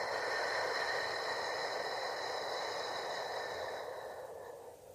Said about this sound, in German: Atme durch die Nase hoch in deinen Brustkorb hinein, bis er sich hebt, und dann atme lang und fein aus.